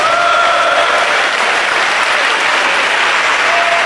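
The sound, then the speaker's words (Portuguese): An audience claps for Jesus in a church service, and the loud, continuous clapping holds a thick, even texture from start to finish. “Pode bater palmas para Jesus, meus irmãos.”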